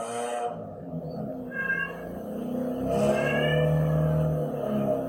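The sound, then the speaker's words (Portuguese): A cat meowing: a few drawn-out, wavering tonal cries over a low background rumble. “Tem um gato.”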